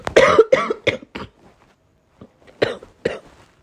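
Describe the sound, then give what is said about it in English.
One person coughs in a quick, loud run of several harsh bursts. After a pause, a few weaker coughs follow. “I'm sorry about this cough.”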